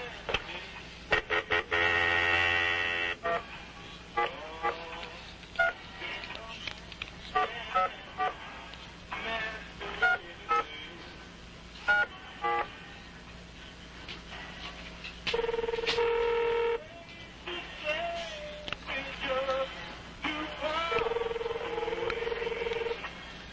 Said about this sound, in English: I'm going to flash over and get another caller.